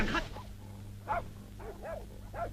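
A dog whimpers with a few thin, whining yelps in a staged comic folk performance about hiding a dog. Steady low hum sits underneath, and the cries are soft and spaced apart.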